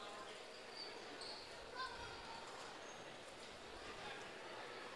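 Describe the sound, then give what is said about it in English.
A basketball is dribbled at the free throw line during a girls' high school basketball game, with faint bounces under a steady wash of gym noise. “Dribbles at the line, puts the next one up, good as well.”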